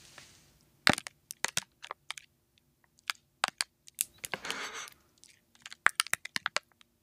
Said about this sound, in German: Das war jetzt nur die Plastikverpackung. Das Geräusch war abgefahren, finde ich.